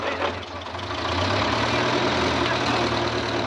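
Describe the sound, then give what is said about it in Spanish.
Heavy engine rumble of an armored car backing up toward a courtyard, a steady low droning idle that stays loud and even throughout, with no clear shifts in pitch. “La tanqueta da marcha atrás”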